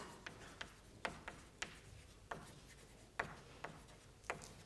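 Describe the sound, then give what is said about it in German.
Handwriting during a mathematics lecture: a series of faint, sharp strokes and taps at irregular intervals, with no speech over them. “Naja, ich schreibe mal hier.”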